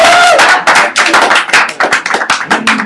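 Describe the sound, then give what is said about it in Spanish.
Applause from a small group at a comic-fan gathering: many overlapping claps merge into a dense, loud, steady patter that lasts about three seconds, with a few sharper claps standing out. “¡Un aplauso para Toño!”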